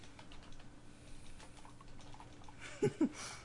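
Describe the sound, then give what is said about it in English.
Faint tapping on a computer keyboard: a few soft key clicks over quiet background noise, with two slightly louder taps close together near the end and no talk. “Oh, now you're going to type good.”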